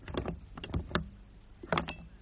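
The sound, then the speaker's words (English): A concealed door in the old part of a house opening with a few wooden clacks and rattles, a short pause, then another close cluster of knocks and scrapes, fairly quiet overall. “Ah, a concealed door. Very neat.”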